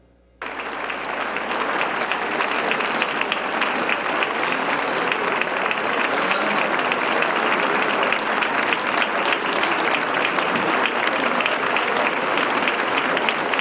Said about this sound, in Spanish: el Pleno de la Cámara de Diputados despidió con un minuto de aplausos al escritor mexicano.